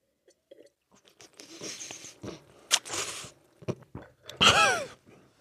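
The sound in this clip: Wine is slurped while air is drawn in, giving a few irregular wet, hissing sucks of varying loudness. The last and loudest one carries a squeaky, whistling tone.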